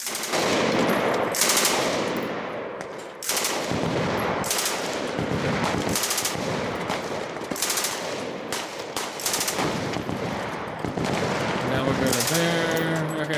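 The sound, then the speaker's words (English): Heavy, rapid gunfire as cowboys shoot everything up: dense automatic-style bursts and sharp cracks run almost continuously and loudly for the whole stretch, with only a brief dip near the start. “While these cowboys are shooting everything up.”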